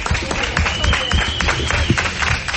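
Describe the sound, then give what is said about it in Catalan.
Applause fills a TV studio as a birthday cake is brought in, a dense, sustained patter of many hands clapping from start to finish at a fairly even level. “Però ja senten doncs també de fons els aplaudiments.”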